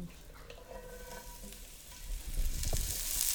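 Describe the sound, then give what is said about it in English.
Brussels sprouts sizzling as they go into a hot oiled pan: a steady frying hiss that swells noticeably louder partway through and stays loud, with no talk. “So Brussels sprouts are going into the pan.”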